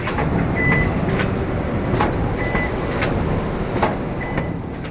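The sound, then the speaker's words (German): Dense machine noise fills a BMW car body plant where stamping presses shape body parts and welding robots join them: a loud, steady roar broken by a few brief hissing bursts. “Die Karosseriefertigung bei BMW, den bayerischen Motorenwerken, läuft heiß. Stanzmaschinen stanzen Karosserieteile, Roboter schweißen die zusammen.”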